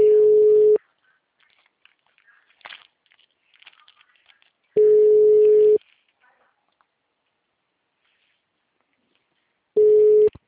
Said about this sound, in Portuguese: Só um momento que a ligação retornou.